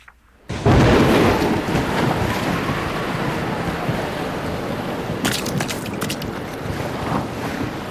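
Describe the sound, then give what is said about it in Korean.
A sudden rainstorm with wind as a typhoon approaches on Jeju: a loud, dense, steady roar that starts abruptly and carries a few sharp crackles near the end. “아 갑자기 웬 비가 이렇게.”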